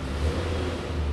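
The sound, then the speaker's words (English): Steady mid-pitched engine rumble from a tractor pushing a pile of mixed recyclables around the tipping floor of a recycling warehouse, a continuous low drone at moderate level. “That noise you hear is a tractor. He's managing the pile. Keeping it on one side of the floor.”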